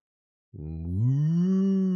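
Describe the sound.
A cow moos in one long, loud, low call that starts abruptly, bends slightly upward in pitch, then holds steady to the end.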